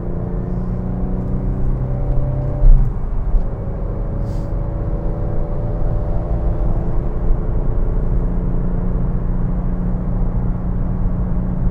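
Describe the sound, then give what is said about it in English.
A car driving, with a continuous low engine rumble and hum. Faint tones glide slowly upward over it, and the sound stays steady throughout with one brief bump early on. “I better get some driving done here.”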